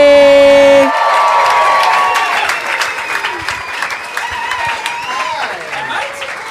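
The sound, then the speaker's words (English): After a short held musical tone, a comedy audience breaks into loud applause and cheering as a comedian walks on stage, then the clapping slowly thins and fades. “Folks, please give it up for your next guest. You know him from Something for the Drive Home. Please welcome Nick Cody.”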